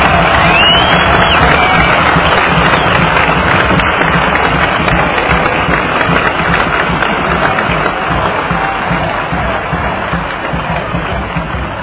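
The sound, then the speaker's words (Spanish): A large crowd at a political rally cheers and applauds in a loud, dense, continuous roar of clapping and shouting that runs for about twelve seconds and eases slightly toward the end. “Vamos a darle un aplauso a Evo desde aquí, la Bolivia.”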